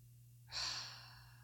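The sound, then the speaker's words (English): A single big, deep breath, faint and breathy, rising abruptly to a rushing peak and then slowly trailing off, heard alone over a low steady hum. “Do one. Do one really big deep breath and reset yourself.”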